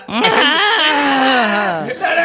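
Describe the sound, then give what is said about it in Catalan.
A baby's crying rises into one long, drawn-out wail lasting about two seconds, loud and strained, with a slowly falling pitch, then the start of another cry. “Aquest nen és... Aquest plor és nou, no?”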